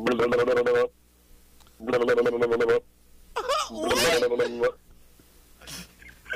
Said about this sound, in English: But I do have a ringtone because everybody seems to be in this One Piece thing, which I follow One Piece.